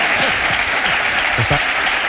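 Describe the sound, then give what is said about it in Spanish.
Applause from a crowd at a football club's presidential speech event: dense, continuous clapping that stays loud and even throughout, with faint voices mixed in underneath. “Aplausos.”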